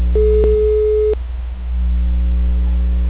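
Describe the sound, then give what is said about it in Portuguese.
A phone video call's ringing tone: one steady electronic beep of about a second over a constant low hum, after which the hum continues alone. “A mulher não atendeu? Você tava ligando, tá chamando ela de vídeo? Olha, eu tô ligando para Maura.”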